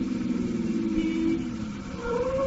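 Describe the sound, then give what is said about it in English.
A car engine hums as the car slows down near a corner. The drone runs continuously, dips in loudness partway through, then swells again. “Driver, slow down. We'll walk from the corner.”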